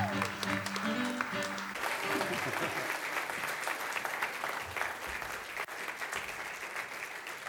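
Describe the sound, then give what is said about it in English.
Audience applause welcoming a rabbi onto the stage at a Bible teaching event: sustained, dense clapping from a crowd that holds steady throughout. “Would you please welcome up our good friend, Rabbi Jason Sobel. Give it up for Rabbi Jason.”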